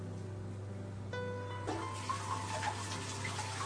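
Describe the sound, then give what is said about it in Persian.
A tap runs as hands are washed between baking tasks. The water is a soft, quiet hiss that swells about halfway in, over a steady low hum. “دستمو میشورم”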